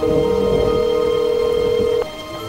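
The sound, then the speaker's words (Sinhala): A telephone call is being placed: a steady, unbroken telephone tone holds for about two seconds and then cuts off abruptly, leaving a faint low hum. “A හින්දම call එකක් ගත්තා”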